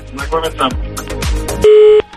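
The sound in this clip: A steady electronic telephone line tone signals an incoming on-air call, a single flat beep lasting about a third of a second, heard right after someone talking.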